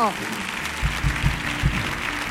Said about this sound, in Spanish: eso fuerte el aplauso para Andalucía